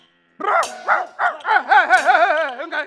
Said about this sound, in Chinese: 原来是一只流浪犬呢。